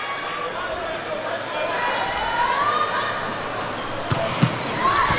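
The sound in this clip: Two sharp, quick thumps of a volleyball being served and struck near the end, standing out over a steady, noisy background.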